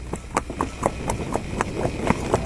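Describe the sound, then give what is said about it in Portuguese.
Hoofbeats of a Mangalarga Marchador, a Brazilian horse breed, moving in its rhythmic marcha gait in the Mantiqueira region: many crisp, evenly spaced clip-clop strikes over a low background rumble. “É o som da marcha cheia de ritmo do brasileiríssimo e de sangue mineiro Manga Larga Marchador.”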